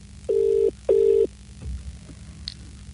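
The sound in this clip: A telephone rings twice, two evenly spaced, steady electronic ring bursts of equal length, followed by low background quiet.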